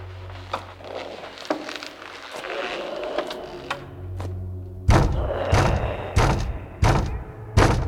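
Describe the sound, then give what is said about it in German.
Knocking on a hallway door: five heavy, evenly spaced knocks close the passage, preceded by a few lighter taps over a low droning hum. “Das Grauen begehrt höflich klopfend Einlass.”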